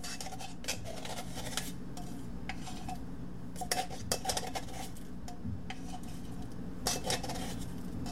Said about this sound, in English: Okay, so now we're adding in the baking powder. Uh-huh. So that's 2 teaspoons.